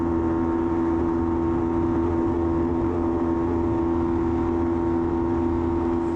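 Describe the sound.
Onboard a racing motorcycle at high speed on a straight, the engine is held hard against its rev limiter, a loud, sustained, buzzing engine note with strong harmonics that stays at an almost constant pitch for the whole stretch.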